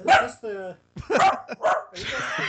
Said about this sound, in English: We got a dog watching guarding the house.